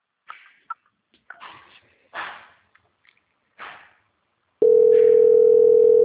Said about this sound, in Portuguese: Eu vou transferir a ligação, tá? Tá bom. Transferência.